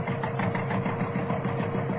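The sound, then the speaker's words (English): A tractor engine chugs steadily as the tractor creeps slowly forward to bring a mounted saw to a tree, giving a continuous low, rumbling mechanical hum with a fast, even pulse. “Tractor move forward to take first bite. Slowly. Easy does it.”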